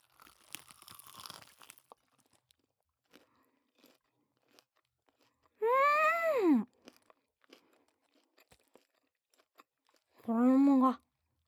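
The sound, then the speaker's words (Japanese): Crunchy fried chicken batter is bitten and chewed, giving faint, crisp crackling crunches for the first couple of seconds. After a pause, two loud, drawn-out voiced sounds follow, separated by near silence. “衣がザクザク、揚げたってさすが。もう一口。”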